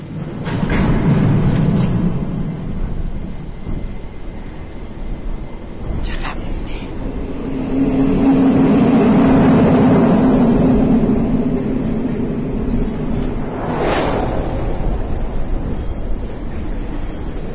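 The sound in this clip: Metro station ambience with trains and a crowd of passengers: a constant loud roar with low rumble that swells through the middle, plus a few metallic clanks.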